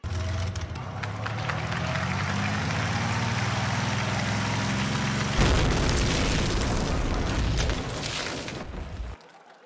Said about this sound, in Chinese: 炸了！